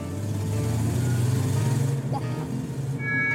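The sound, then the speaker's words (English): A car driving, its engine giving a steady, low droning rumble that holds at an even level throughout. “Stop your vehicle! Stop your vehicle or we'll shoot!”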